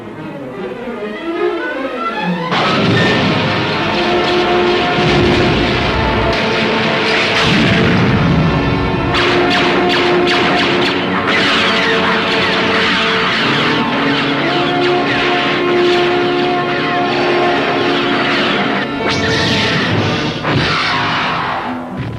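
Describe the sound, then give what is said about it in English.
Heavy booms and cinematic sound effects from a Star Wars main trailer, a dense, loud, continuous wall of rumbling impacts, whooshes and roaring layers that barely lets up from start to finish. “So the first one you saw was the teaser trailer, and then we're going to bring out the main trailer for this movie.”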